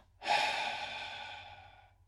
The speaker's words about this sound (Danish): Holder vejret og spænder i musklerne. Spænder hele kroppen. Og dobbelt udånding.